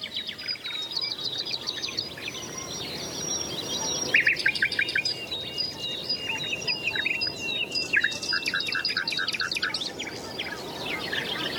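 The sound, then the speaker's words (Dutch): A nightingale sings at sunrise in spring coastal dunes, pouring out many rapid, rhythmic trills and sharp whistled phrases that repeat without pause over a soft steady background hiss. “Je hoort inderdaad nog steeds de nachtegaal erbovenuit tetteren.”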